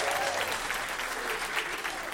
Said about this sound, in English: can we please give a big round of applause for IKEA and the staff at IKEA?